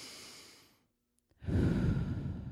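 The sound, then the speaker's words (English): A deep breath drawn in softly, then a short silent pause, followed by a long, loud, breathy exhale blown out steadily through the mouth. “So take a deep breath with me. Blow it out. Come on, one more.”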